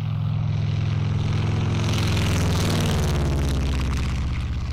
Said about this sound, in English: That sound is a propeller plane from Red Tail Air Adventures in Moab.